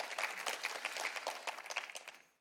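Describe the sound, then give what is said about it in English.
Applause from an audience at a Christian worship gathering, many hands clapping in a dense, steady patter that tapers off and fades out near the end. “Go ahead and give us, yeah, you can clap for him, that's fine.”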